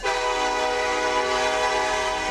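A train pulling out sounds one long, loud, unbroken horn blast that holds a rich, steady pitch for the whole stretch, with no voices over it.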